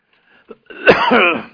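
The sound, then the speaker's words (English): Someone clears a tickle in the throat: a small click, then one rough, voiced rasp of throat clearing with a coughing edge, short and fairly loud. “Get rid of that tickle in my throat here.”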